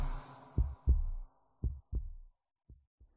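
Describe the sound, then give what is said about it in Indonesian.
A heartbeat thumps in three low, muffled lub-dub pairs, evenly spaced, the last pair softer than the first two, after a faint hiss at the start. “menyadari betapa pentingnya setiap detak jantung”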